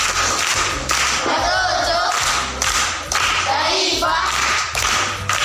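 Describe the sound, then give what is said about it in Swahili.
Primary-school children clap together in a dense, steady wash of handclaps with recurring thumping accents, holding loud and continuous for about five seconds. “Makofi kwa mjomba.”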